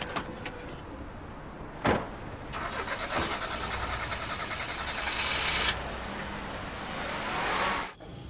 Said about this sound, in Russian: Они садятся в машину и уезжают.